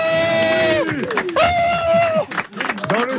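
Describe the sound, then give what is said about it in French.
Crowd cheering, clapping and shouting from a studio audience in a sports-show setting, loud and continuous with whoops and rising cries for about three seconds. “je vous demande de vous applaudir puisque vous êtes tous là”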